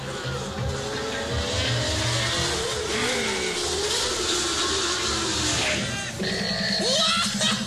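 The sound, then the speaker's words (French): Race cars launching from the start of a Grand Prix: a dense, continuous engine roar with revving runs steadily loud throughout. “Ils vont bientôt s'éteindre et les voitures vont s'élancer.”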